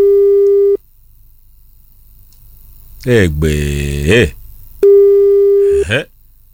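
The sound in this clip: Two long, steady telephone tones, both flat in pitch and fairly loud, are separated by a pause. A short burst of voice sounds between them.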